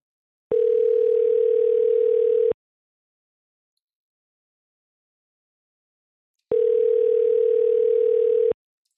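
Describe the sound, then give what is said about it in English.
Ringback tone heard while placing a phone call: two steady, even electronic tones of about two seconds each, separated by a long silent gap. “I'm calling them. Let's see what happens.”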